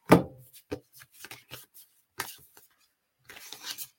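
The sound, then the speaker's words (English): Oracle cards from the Sacred Forest deck by Denise Lynn are drawn and handled, giving brisk papery slaps and shuffles: a sharp opening snap, a run of scattered light taps, then a short rustling burst near the end. “Sacred Forest by Denise Lynn. And we're gonna pull five cards. So I think we're just gonna go with these five.”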